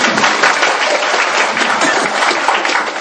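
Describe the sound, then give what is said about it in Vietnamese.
Loud, dense audience applause, an unbroken roar of many hands clapping that holds steady at full strength for about three seconds. “Vỗ tay.”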